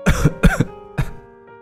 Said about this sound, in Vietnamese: Bà nói rồi ho lên dữ dội.